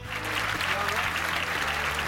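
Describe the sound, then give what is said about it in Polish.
An applause sound effect laid in as a background jingle: steady, dense crowd clapping at moderate loudness, blended over a low, sustained tonal layer underneath. “A tutaj dżingielki dorabiam w tle, żeby nie było tak łyso, to ci dorobiłem oklaski.”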